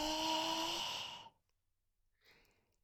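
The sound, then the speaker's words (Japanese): A long, deep, relaxed exhalation with a soft voiced sigh, fading out after about a second, followed by a quieter, shorter breath. “はい、吐いて、リラックス、はい、吸って。”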